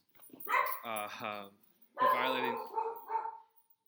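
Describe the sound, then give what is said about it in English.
A dog barks and yelps in two drawn-out, tonal bursts separated by a short pause, fairly loud against a quiet background. “Sorry, that's my dog. Go get him.”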